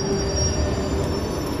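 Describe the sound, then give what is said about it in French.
A train on an underground RER A station platform, its wheels squealing in a loud, steady high whine over continuous rumbling noise, with no voices. “Je suis sur le quai du RER A. Je crois que c'est le point le plus bas de la station.”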